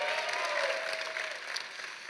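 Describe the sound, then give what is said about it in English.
An audience applauds during a sermon. The clapping is steady and moderately loud for about two seconds, a dense wash of hand claps that eases off slightly toward the end. “Give Tash a round of applause.”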